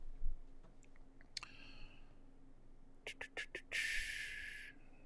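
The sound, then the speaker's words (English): Computer mouse clicking: scattered faint ticks, then a quick cluster of sharp, crisp clicks close together. “Oops. Sometimes I try to click on them and they move.”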